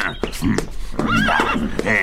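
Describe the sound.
A horse, the master's mount in a palace courtyard, neighs in a few shrill, wavering whinnies that rise over a steady background rumble.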